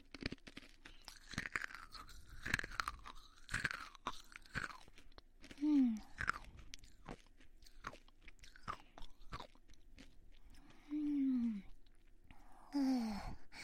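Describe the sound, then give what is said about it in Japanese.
Chewing of sweet food close to the mouth, with irregular crunches and bites interspersed with softer wet mouth sounds, quiet overall, and occasional louder bursts of crunching. “噛んでいきます。”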